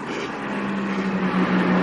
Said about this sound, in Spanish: El coche oruga desaparece entre la niebla.